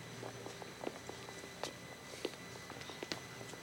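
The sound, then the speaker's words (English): A few faint, hesitant footsteps on a street under a glowing street lamp, landing as soft, irregular taps with uneven gaps between them over a quiet background. “Pausing under a glowing street lamp, he takes a few hesitant steps, then turns back.”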